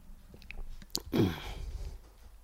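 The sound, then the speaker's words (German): A sip of black coffee, taken without oat milk: a short, soft slurp and swallow with a small click just before it, faint and alone with no talk. “und jetzt muss ich noch was trinken.”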